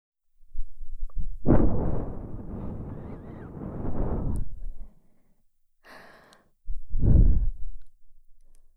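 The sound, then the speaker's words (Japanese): Slow, gentle breath blown out softly toward the ear in two long airy exhalations, the first drawn out over several seconds and the second shorter, separated by a brief quiet gap with a faint small sound. “最初は、ゆっくりと、ふうふうと息を送っていきますね。”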